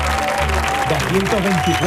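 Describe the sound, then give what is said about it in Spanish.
An audience applauds at the Ibercaja Cartuja auditorium for a show's 224th programme. Continuous clapping runs under voices speaking over it. “224 programas se cumplen hoy. Yo creo que eso merece un aplauso, por favor. Vamos, vamos.”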